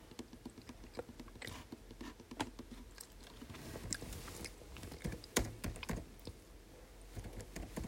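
Rapid typing on a computer keyboard while writing a game chat message, a quiet, uneven patter of many key clicks with no talk.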